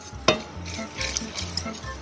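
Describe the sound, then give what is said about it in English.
Whisking of a warm milk sauce in a pot, with the whisk reaching into the corners: a run of scraping, swishing strokes at a moderate level, one sharper clink near the start, and no voices. “Whisk really well. Get into the corners of the pot.”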